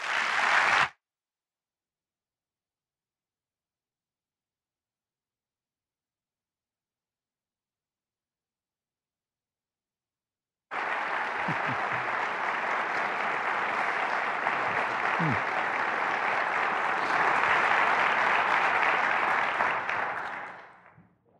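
An audience applauds to welcome John MacArthur to the stage. A short burst of noise opens, then about ten seconds of silence, then dense, steady clapping for roughly ten seconds that swells slightly before cutting off.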